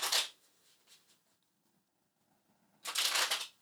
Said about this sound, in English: The cards do what we ask them to do, so as I shuffle them, take a moment and ask the cards to do what you need them to do.